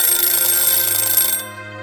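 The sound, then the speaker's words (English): A mechanical dial egg timer's bell rings as its time runs out, a bright, rapid metallic ringing held for over a second before it stops and fades. “It was your run-of-the-mill egg timer, the kind with the dial where you turned it to set the desired time, up to 1 hour. And then, when time was up,”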